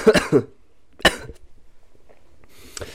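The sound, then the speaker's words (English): A sick person coughs: two short, harsh coughs close together, then a single stronger cough. A fainter cough follows near the end, with quiet between the bursts and no speech. “obviously, I'm still sick. I'm coughing.”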